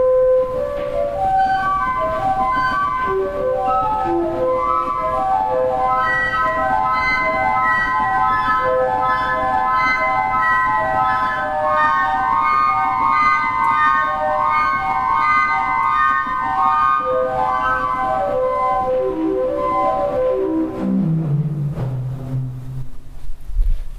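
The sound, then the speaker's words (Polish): A traverse flute stop on a pipe organ, voiced to imitate the baroque flute, plays a flowing melody of clear, sustained, breathy notes alone, ending with a descending run into lower notes. “jest traverse flet, czyli jest to flet, który ma imitować barokowy flet traverso. Posłuchajmy, jak on brzmi.”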